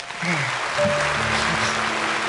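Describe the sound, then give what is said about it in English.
A studio audience gives a standing ovation. The clapping is a steady, dense wash at moderate level, with a few faint voiced tones underneath. “The studio audience loved it. Standing ovation.”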